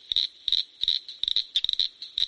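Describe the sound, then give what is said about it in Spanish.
A northern cricket frog calls with dry, high-pitched clicks. They come in quick, irregular clusters of two to several, with brief silent gaps between groups. “Y aquí tenemos ahora, vaya coincidencia, la rana grillo del norte.”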